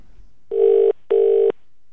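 An unanswered telephone rings: two even electronic buzzing bursts of equal length with a short gap between, loud and steady in tone.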